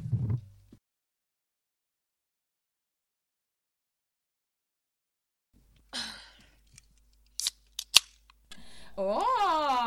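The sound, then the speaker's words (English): Cracking open a cold can of drink: after silence, a few soft rustles and clicks come before one sharp, bright snap of the tab. A voiced sigh follows. “Don't mind me just cracking open a cold one.”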